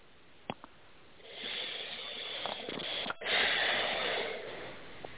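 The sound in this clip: A person takes slow, deep breaths: two long, airy, hissing breath sounds, the second louder, preceded by a couple of faint clicks.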